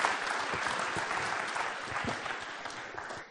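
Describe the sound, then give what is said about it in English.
Applause from a church audience welcoming a guest speaker: dense, steady clapping that holds at an even level throughout and stops abruptly at the end, with no voices over it. “Let's put our hands together and let's give Kelsey Timmerman a very warm Commonway Church welcome.”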